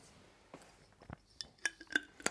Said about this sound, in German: Aber ich stelle die mal weg, ja, die ja. nachher immer noch. ja, einen Deckel drauf.